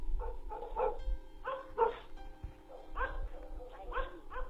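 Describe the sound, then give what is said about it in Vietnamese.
A dog barks furiously in a few short clusters of sharp, fairly faint barks, separated by brief pauses. “Tuy nhiên tiếng chó sủa thì càng lúc càng lồng lên dữ dội, như là con chó nó đang cắn ma.”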